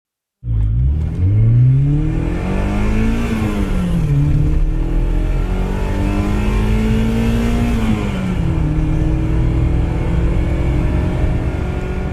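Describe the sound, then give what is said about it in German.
A BMW M3 Evolution's S14 four-cylinder engine revs loudly and continuously for about twelve seconds. Its raspy pitch sweeps up and drops back down several times. “Damit ihr so viel Geld nicht ausgeben müsst, um dem S14 Vierzylinder zu lauschen, hier mal eine kurze Hörprobe.”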